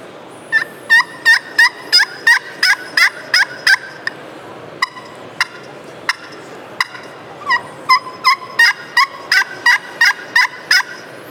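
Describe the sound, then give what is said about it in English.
Turkey yelps from a friction pot call played with a different striker: a quick run of loud, evenly spaced yelps, a few sparse single notes, then a second run of yelps. “Different striker has a different sound to it too.”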